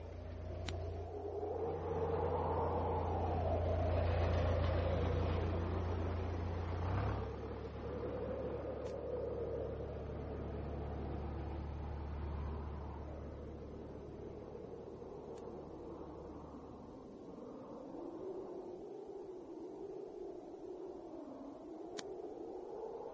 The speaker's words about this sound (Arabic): أزعج هدير محرك السيارة نوم سادة التندر.